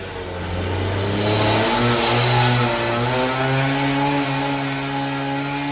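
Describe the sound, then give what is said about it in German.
Early-morning street noise outside a hotel at 7 a.m., heard from the bedroom, dominated by a loud, steady motor drone like a chainsaw or revving engine; its buzzing pitch rises slightly, then holds for several seconds. “von draussen auf der Strasse eine Geräuschkulisse ist losgegangen, die ich dir natürlich auch nicht vorenthalten will.”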